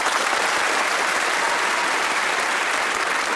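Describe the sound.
Studio audience applause welcoming comedy panellists, a dense, even wash of clapping that stays loud and steady throughout.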